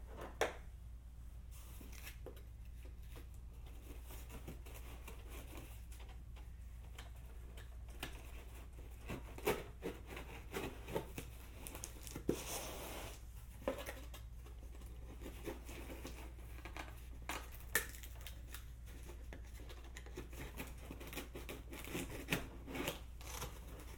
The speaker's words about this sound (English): Do you want me to cut off the tape?